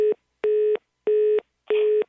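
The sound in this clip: Telephone busy tone sounding after a call is hung up: four evenly spaced beeps of a steady mid-pitched tone, each about a third of a second, separated by short silences, with no talk.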